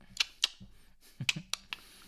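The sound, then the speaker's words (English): Voices imitating a computer mouse click with their mouths: a few sharp, dry clicks spaced irregularly, separated by brief low vocal sounds. “Should we just get like a mouse and like do a click sound?”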